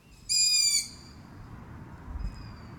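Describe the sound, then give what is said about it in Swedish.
A loud, high, squeaky screech from young long-eared owls scattered through a small wood, begging their parents for food. It is a single strained call lasting about half a second, with quiet background hiss around it. “det är nog hornuggleungar som sitter utspridda i en skogsdugge och ropar på sina föräldrar.”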